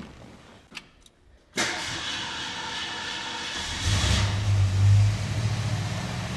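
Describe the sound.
Car engine with an Edelbrock 650 carburetor starting: two faint clicks, then it fires abruptly into a loud, rough running note, is revved up for a moment and then eases back.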